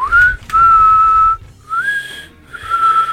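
Clear, high whistled notes from a pair of whistling brothers, four sustained tones alone without talk, some gliding upward at their start before holding steady.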